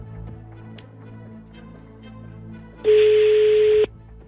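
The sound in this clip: Ringing tone of an outgoing telephone call: a single steady, mid-pitched tone lasting about a second, following a quieter stretch of faint clicks.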